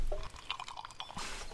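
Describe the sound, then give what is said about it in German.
A deep gulp of cold fizzy lemonade comes through as faint wet swallowing and a few small liquid clicks and squishes, ending in a brief soft fizzing hiss. “Ich jedenfalls gönne mir jetzt einen tiefen Schluck kalter, prickelnder Limonade.”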